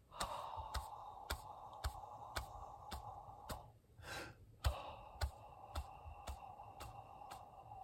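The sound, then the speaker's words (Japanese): Paced breathing exercise: long, steady exhales run over a regular click beat, break off briefly, then a quick sharp inhale lands on one beat before the exhaling resumes. The clicks keep an even tempo throughout. “まずは呼吸を7拍吐いて8拍目に吸うのパターンです。”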